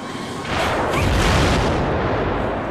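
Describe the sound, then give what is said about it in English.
An explosion bursts in after a brief moment and rolls on as a loud, sustained, rumbling roar with no break until the end. “It explodes.”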